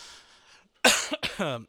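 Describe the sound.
A person clears their throat with one loud, rasping burst, followed by a few shorter gruff pushes, the last of them voiced.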